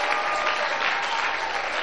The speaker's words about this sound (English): Shall we just give a clap offering to the Almighty God?